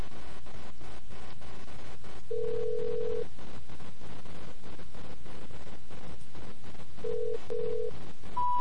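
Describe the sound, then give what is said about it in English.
Telephone tones from a tone dialer dialing a number: a few steady beeps of one pitch, one long and several shorter, over constant noisy hiss. “So, let me dial into my tone dialer here.”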